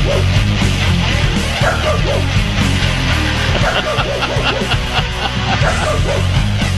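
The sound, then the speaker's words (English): Dogs bark in a backyard: many loud, overlapping barks and yips run continuously through a dense, noisy background. “hey, barking dog people, how do you do that? I don't like my own dog barking in the backyard”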